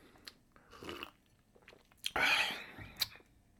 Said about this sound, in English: I don't like the taste of that lemon drop. I think I made it too strong.